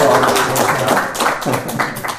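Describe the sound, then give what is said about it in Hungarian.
Audience applause, a dense and steady clatter of many hands clapping that holds at a fairly loud level and tapers slightly toward the end. “Na, ezt a még nagyobb tapsot szeretnék kérni.”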